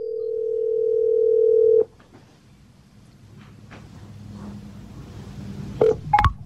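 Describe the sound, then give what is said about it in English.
A phone call placed through a smart speaker: a steady mid-pitched tone holds for nearly two seconds, then cuts to faint hiss before a couple of short, sharp beeps near the end. “Siri, call Bobby Simmons. Calling Bobby Simmons, mobile.”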